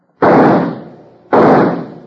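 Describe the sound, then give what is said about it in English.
Two loud pistol gunshots from target shooting, about a second apart. Each is a sharp, heavy blast with a lingering tail that fades out, and there are no voices. “Got it, by gum. Nice shooting, partner. Well, my guns are empty.”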